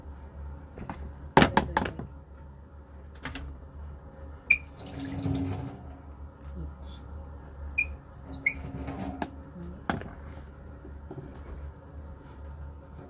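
Water being poured in for cooking, alongside flour and salt, makes a brief, faint hissing splash. Several sharp kitchen knocks, clinks and a squeak surround it.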